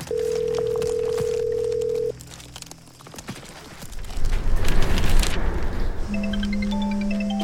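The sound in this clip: A telephone call that goes unanswered, heard as one long, steady ringing tone that cuts off after about two seconds, followed by louder clattering and rustling noises and a few further electronic tones.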